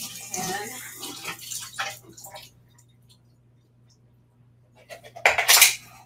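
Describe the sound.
Liquid drains from a can of organic hearts of palm during sushi preparation: short trickling splashes and light metallic clinks, a quiet gap, then a louder gush at the end, over a faint steady hum.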